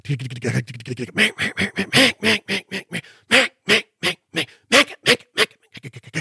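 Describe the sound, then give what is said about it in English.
A duck call imitates a mallard hen with lonesome hen calls, quacks and strings of greeting calls: many loud, nasal, raspy quacks in quick rhythmic runs, separated by brief gaps. “You can mix in some lonesome hens, some quacks, and then a couple strings of greeters.”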